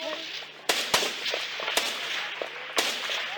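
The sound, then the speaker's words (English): Gunfire from a July 2006 combat recording: a few sharp, cracking rounds are fired at irregular intervals over a low, steady background hum, with faint voices. “that you can listen to that was taken back in early July of 2006, just before I got there. Just put a couple rounds right there.”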